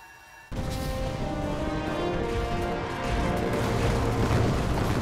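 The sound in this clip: Dense battle roar of artillery and gunfire from an imperial army engagement bursts in abruptly after a brief quieter moment, then holds as a loud, continuous rumble of booms and crackling shots.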